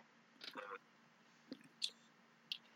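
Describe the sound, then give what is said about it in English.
Someone munching Rice Krispies cereal, heard as faint, soft crunches and wet mouth clicks. A few brief bites come spaced apart over near silence. “What you munching on?”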